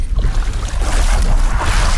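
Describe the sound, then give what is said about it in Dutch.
Water churns and sloshes as people step out of a boat into shallow water over a sandy bottom in a former mangrove area. The sound is a loud, continuous, splashy wash with no clear separate steps. “Oeh, stappen uit de boot nu.”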